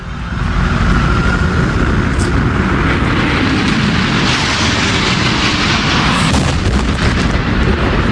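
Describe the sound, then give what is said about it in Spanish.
The airplane crash into the second World Trade Center tower on 11 September 2001 is heard as a loud, sustained, roaring rumble that rises within the first half second and continues steadily to the end. “Este es el sonido del impacto en la segunda torre.”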